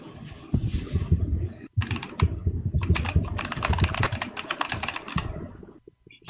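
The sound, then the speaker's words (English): Rapid typing on a mechanical keyboard with Cherry MX Blue switches produces dense, crisp clicking keystrokes in quick bursts. A brief pause breaks the typing early on, and it thins out near the end. “Oh, I love the sound of MX Cherry Blues.”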